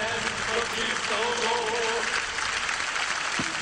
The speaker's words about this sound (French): c'est pas facile à trouver avec les applaudissements